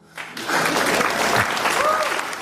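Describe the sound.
Audience applause at a one-man show at an African film festival rises from a brief near-silence into a full, dense wash of clapping that stays strong and even to the end.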